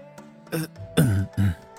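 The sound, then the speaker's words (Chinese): A voice imitates a man's awkward throat clearing and coughs, giving a few short, voiced bursts over a faint steady background tone. “尴尬的咳了两声，轩辕离起身，”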